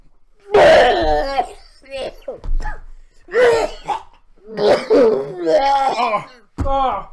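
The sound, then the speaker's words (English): A person retches while trying to vomit, giving a series of strained, throaty, voiced heaves and gagging groans. The bursts are loud and uneven, with short pauses between them. “Puke is coming, dude. I know you're trying to puke.”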